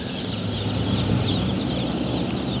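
Many day-old chicks, future laying hens, peep in a dense, continuous chorus of high, overlapping chirps that stays loud and steady throughout, with no voices.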